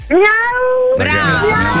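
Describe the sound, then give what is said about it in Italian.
A person imitates a cat, giving two long, drawn-out meows in a row, loud and alone, the second slightly lower and steadier in pitch. “Se vuoi miagolare un po' adesso puoi fare. Puoi fare sto miau”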